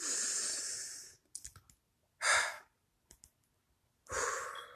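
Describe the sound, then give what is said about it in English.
A deep inhale during a guided breathing exercise, one long drawn breath followed by shorter breath sounds and a few faint clicks between them. “Remember, find that comfortable position. Inhale.”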